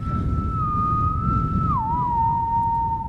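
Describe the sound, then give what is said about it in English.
A haunting whistle from a horror film soundtrack holds one long, steady tone, then slides down to a slightly lower pitch and sustains it, over a dull low rumbling bed, with no voices. “did the soundtrack, which is also haunting with that whistle. And now, there you go.”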